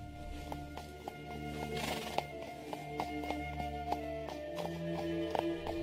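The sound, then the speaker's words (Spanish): Hooves of mares let loose to find their foal clip-clop in a steady rhythm of light strikes over a continuous tonal background. “Usted, don Correa, vaya en el medio junto con el potrillo. Como usted diga, don. Bien. Suelten ustedes las yeguas.”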